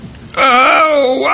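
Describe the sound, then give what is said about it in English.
A person imitates the long, drawn-out groan of getting out of bed with stiff, aching legs: a single loud, sustained vocal moan that starts abruptly and holds a steady, voiced tone to the end. “Meanwhile, while we groan, Paul would listen to me get out of bed every morning.”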